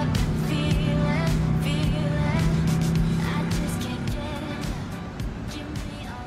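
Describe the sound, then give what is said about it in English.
A car drives off down a road at sunset. Its steady engine rumble and road noise hold for several seconds, then gradually fade toward the end. “They drive off down the road as the sun sets in the distance.”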